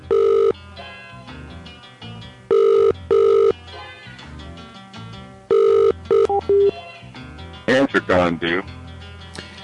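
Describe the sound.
A telephone rings with an incoming call: several loud, steady electronic ring bursts come in a broken pattern. Talk and other clattering noises fill the gaps between them and follow at the end.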